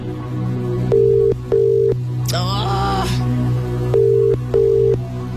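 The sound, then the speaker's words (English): Ringback tone on an outgoing phone call waiting for pickup: two pairs of double rings in an even repeating pattern over a low hum, with a short voice-like sound between the pairs. “If they don't pick up, we're going to have to move on to the next caller. Let's give it a bit more.”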